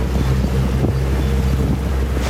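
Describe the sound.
Boat heading out on the water at the start of a pike-fishing trip: a steady, low engine drone under loud, constant wind rushing across the microphone.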